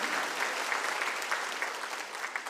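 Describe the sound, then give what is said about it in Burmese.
Applause from a church audience during a Sunday afternoon sermon: a steady, dense patter of many hands clapping, moderately loud and even throughout, with no voices over it. “လက်ခုပ်တီးလက်ထိုးဖရားကိုချီးမွမ်းကြရအောင်အာမင်”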